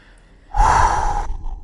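A single deep, breathy inhale, a loud, rushing burst of air about half a second long that stops abruptly, with no talk around it.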